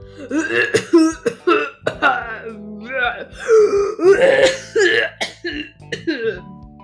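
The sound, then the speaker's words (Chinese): A human voice imitates a unicorn coughing, giving several hoarse, voiced coughs and throat-clearing sounds in a quick, irregular series. “独角兽的脚动了一下，还咳了几下。”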